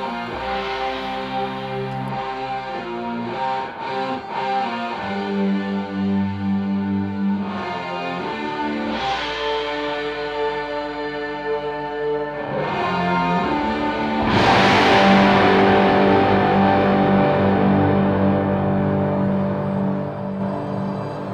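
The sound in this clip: An instrumental rock passage plays with no vocals, thick distorted sustained tones and shifting chords, swelling into a louder, denser section about two-thirds of the way through.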